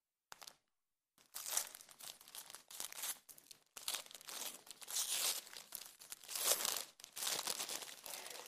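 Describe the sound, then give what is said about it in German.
Wrapping paper crinkles and tears as a wrapped gift is unwrapped: loud, continuous rustling in many dense bursts, with a brief pause near the start and no talking. “Und das habe ich uns mitgebracht und das packe ich jetzt mal aus.”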